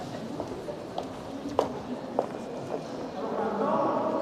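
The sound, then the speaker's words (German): Footsteps of people walking through the EU Council building past the lifts toward a large hall: about five soft, evenly spaced steps over a steady background murmur that grows slightly louder near the end. “Wir laufen jetzt also gerade hier ein paar Lifte vorbei, Richtung der zweiten grossen Halle in diesem EU-Rat”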